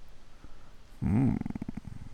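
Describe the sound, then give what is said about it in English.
A dog-like vocal sound from a video game: one loud, arched yelp that rises and falls in pitch, followed by a quick, pulsing rattle that fades off. “What do we have here? a boy named Sora, a duck, and a dog.”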